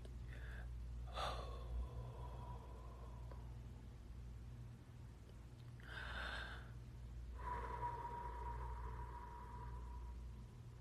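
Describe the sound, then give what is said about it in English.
Deep, slow breathing as someone deliberately calms down after getting worked up: a few long, airy inhales and exhales over a steady low hum, with no talk. “y'all breathe with me”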